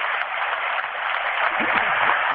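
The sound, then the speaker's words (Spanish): Continuous applause from a crowd at a street march, a dense, steady crackle throughout, with a voice faintly speaking over it near the end. “Ahí surgen de vuelta los aplausos.”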